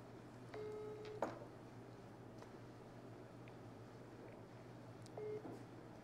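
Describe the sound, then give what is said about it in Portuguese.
Telephone keypad tones sound as a number is dialed: a short run of faint beeps, then another brief tone a few seconds later, over a quiet, steady hum. “Vamos ligar pro Fávaro aqui.”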